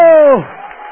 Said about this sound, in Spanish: ¡Mire, si la gente aplaude al Papa de Roma, nosotros aplaudimos a nuestro Rey!